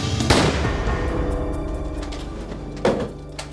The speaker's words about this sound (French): On lui tira une balle dans la nuque.